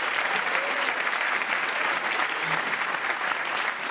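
An audience applauds the winning team at the end of a debate, a dense, steady clapping that stays even and loud throughout without a break.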